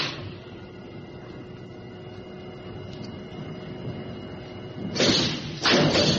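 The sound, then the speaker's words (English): A spacecraft airlock door operates: a steady low electrical hum runs throughout, then two loud, hissing thuds burst out in quick succession near the end. “Right, I'm going through the airlock now.”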